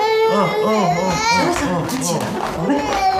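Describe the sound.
A baby cries in repeated short wailing bursts, each cry arching up and down in pitch, loud and continuous throughout.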